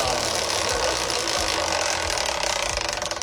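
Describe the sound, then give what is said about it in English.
Rapid ratcheting clicks of a prize wheel given a big spin to pick a quiz category, a dense, steady clatter that turns into more distinct, separated ticks toward the end. “Here comes a big spin of the WizKid Wheel.”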